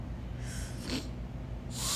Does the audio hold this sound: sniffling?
yes

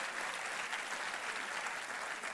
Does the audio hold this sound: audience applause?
yes

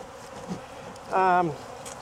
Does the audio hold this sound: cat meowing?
no

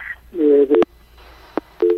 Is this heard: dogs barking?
no

